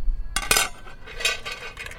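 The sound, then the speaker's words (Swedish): Metal pots and parts clink and clatter as a camping storm stove is set up, with a few sharp clanks followed by lighter rattling. No voices are heard. “Och först så ska jag sätta upp det här stormköket.”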